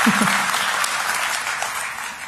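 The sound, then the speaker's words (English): An audience claps, a dense patter of many hands that holds steady and tapers slightly toward the end. “People are finally clapping.”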